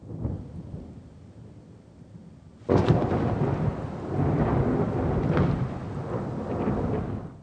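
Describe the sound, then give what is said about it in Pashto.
Thunder and rain at night: a soft, steady rain hiss gives way to a sudden loud thunderclap that rolls into a long, heavy rumble as the rain continues underneath. “وروسته له هغه باران پیلېږي، او ټوله شپه د تالاندې او برېښنا غږونه اورېدل کیږي”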